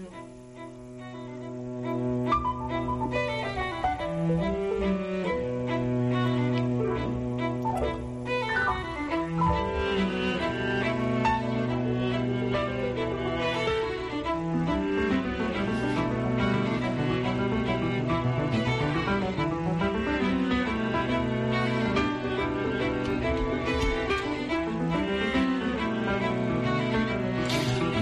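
A string quintet plays a slow piece of bowed chamber music, with sustained, layered lines of cello and violins moving through gentle harmonic shifts at a soft, even level throughout.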